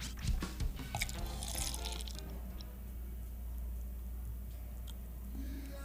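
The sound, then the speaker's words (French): A drink from a carton poured into a glass: a few brief knocks and splashes at the start, then a faint, steady trickling stream continuing to the end. “Bon, donc dans le verre maintenant. Je vais y aller avec le verre et je vais verser. Dans le micro magique.”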